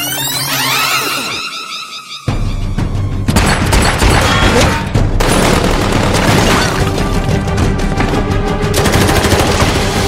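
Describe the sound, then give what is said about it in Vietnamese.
Rapid gunfire rattles in dense, loud bursts as shots are sprayed wildly at corpses, with a brief break near the start before the shooting resumes and continues without pause to the end. “Lục Tử Minh cứ bắn bừa vào các xác chết kia, tuy bị bắn trúng nhưng bọn chúng cứ trơ ra”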